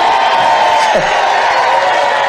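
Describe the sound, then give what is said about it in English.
A crowd at a Trump speech screams and cheers in a loud, dense, unbroken roar of many voices that holds steady throughout. “no. Trump was not done speaking. So you can see he got frustrated that the crowd started screaming too soon.”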